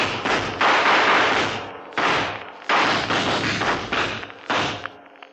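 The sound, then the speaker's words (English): Heavy booming blasts and thuds from an explosion blowing up a gunman hiding behind cars in a staged shootout: a loud series of deep bursts in an irregular rhythm, each decaying briefly before the next, with no voices. “Okay, blow him up.”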